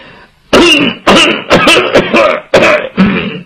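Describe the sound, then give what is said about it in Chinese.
A man's voice imitating an old father coughing in the room opposite: five or six short, rasping coughs and throat-clearing bursts in an uneven rhythm, loud and harsh, with brief gaps of quiet between them. “就听对面屋他爹在那咳嗽一声”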